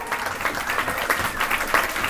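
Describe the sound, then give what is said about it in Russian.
An audience applauds with dense, steady clapping, many hands striking at once in a continuous patter. “Да. Похлопаем.”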